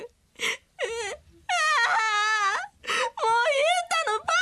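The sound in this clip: A woman cries in several loud, wavering wails broken by short gasps and pauses, her voice trembling and straining between sobs.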